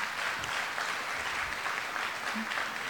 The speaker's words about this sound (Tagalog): Ano po, palakpakan ho natin ang Panginoon.